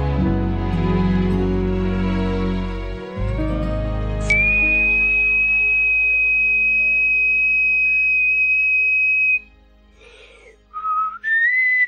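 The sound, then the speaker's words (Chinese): A person whistles a tune, gliding upward into a long, steady, high note held for several seconds, then a few short notes at the end. “还会吹口哨吗？哎，其实口哨啊，”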